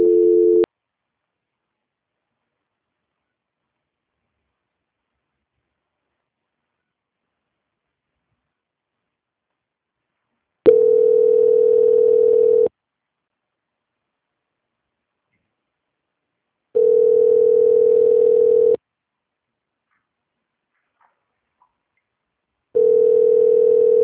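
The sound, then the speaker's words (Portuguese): A steady mid-pitched telephone tone plays while a customer service call is transferred to a quality department. One short beep comes first, then three longer tones of about two seconds each, separated by long silences. “eu vou estar transferindo agora a ligação para o setor de qualidade, que vai dar andamento e finalizar o processo para o senhor, tá bom? Só um momento. Tá bom. Transferência.”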